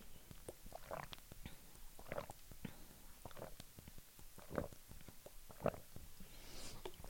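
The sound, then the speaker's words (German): Someone drinks 100 millilitres in many quiet, regularly spaced gulps and swallows over a faint, steady background hiss. “Ich trinke aber vorher mal 100 Milliliter.”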